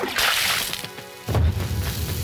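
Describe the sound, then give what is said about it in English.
A bucket of bath water is dumped onto a television. A brief rushing whoosh is followed by a single heavy, low splash and sloshing about halfway through. “So you dumped a bucket of water on the television against your will.”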